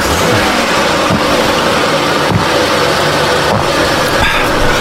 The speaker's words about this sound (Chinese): 我开车了。